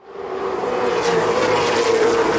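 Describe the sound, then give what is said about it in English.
Race car engines roar on a short 3/8-mile oval track at 80 to 100 miles per hour, a loud, steady drone that swells in at the start and holds without a break. “Cars zip around the 3/8 mile track at speeds of 80 to 100 miles per hour.”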